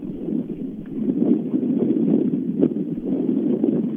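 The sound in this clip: Wind buffets a microphone with a steady, muffled, rumbling roar that swells and eases slightly in gusts throughout, with no talk over it.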